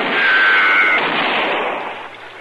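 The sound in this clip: A single loud gunshot rings out in a radio western drama showdown: a broad roaring blast with a thin whine inside it, fading slowly over about two seconds.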